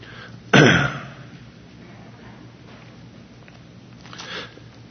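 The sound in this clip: A single sharp throat clearing from a speaker during a scripture reading: one loud, rough burst near the start that fades quickly into a quiet hum, with only a faint rustle later.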